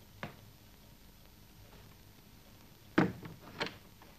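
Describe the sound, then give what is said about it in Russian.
A door to a room shuts in a radio drama: a faint early tap, then a sharp, louder thud as it closes, followed by a softer knock, over a quiet, still background. “Кирьян закрывает дверь в комнату.”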